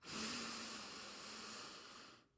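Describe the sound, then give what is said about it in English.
A person inhales deeply during a breathing exercise, a steady airy rush lasting about two seconds that tails off at the end. “So let's inhale.”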